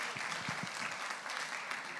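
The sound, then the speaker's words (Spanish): Faint applause at an international peace gathering greets guests from Mexico, a soft, steady patter of clapping with a few low thumps early on. “¿Dónde están las personas de México? Me dicen por acá también. Un aplauso para ellos.”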